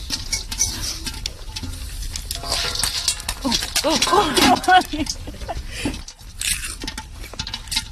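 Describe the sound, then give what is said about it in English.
Popcorn pops in a lidded pot set over a real fire, a scatter of quick, light pops and patter running under several people talking throughout. “Wow, popcorn on a real fire. I think you should just take the lid off. No, guys, they're all gonna pop up.”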